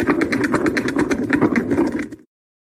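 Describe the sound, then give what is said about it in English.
A novelty spinner whirs as it is spun, giving off a fast train of rattling clicks at a fairly even pace before it cuts off abruptly after about two seconds. “let's spin the It's Not a Salad Spinner, see who it is.”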